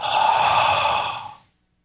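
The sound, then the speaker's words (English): A person exhales one long, breathy, airy breath that lasts about a second and a half, steady at first and then tapering off into silence. “See that breath? That exhale right there?”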